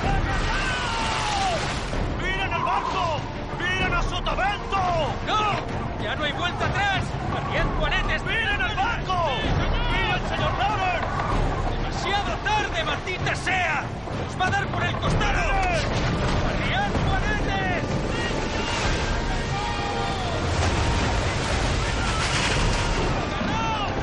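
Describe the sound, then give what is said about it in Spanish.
A storm and waves batter a ship in a film scene, with roaring wind-like noise, repeated heavy booming crashes and shouting voices throughout. “tormenta y las olas parecen comerse el barco, que está descontrolado.”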